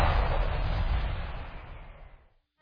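Diwali firecrackers burst in a radio advert: a loud, broad explosive crack opens, followed by a rumbling, crackling tail that fades over about two seconds, then a sudden new burst cuts in at the very end.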